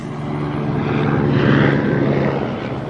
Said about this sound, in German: Sogar ein Stern lässt sich blicken. Einen solchen Stern wirst du in der Wildnis niemals finden. Ist ein Hubschrauber.